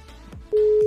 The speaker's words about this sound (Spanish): Ahí estoy llamando en vivo, ahora sí. A ver si, si está sonando, si está haciendo tono, no tengo ni idea. Ahí está haciendo tono